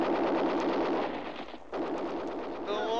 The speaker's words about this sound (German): Es wird geschossen!